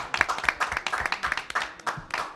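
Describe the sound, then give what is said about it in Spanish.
Applause of hands clapping in a quick, irregular patter, moderately loud and continuous for a couple of seconds. “Un aplauso para Gabón.”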